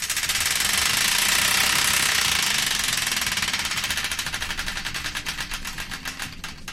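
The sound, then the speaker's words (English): Prize wheel spinning, its pointer clicking so fast at first that the clicks merge into a dense, loud rattle. The clicks then spread apart and slow steadily as the wheel loses speed. “The Wheel of Destiny is here ready to be spun, so without further ado, let's spin it”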